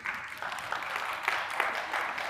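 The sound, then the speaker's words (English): A church audience gives weak, half-hearted clapping, faint and thin, with a few sharper claps poking out of a sparse patter. “It's not a very good clap, but we'll go with it.”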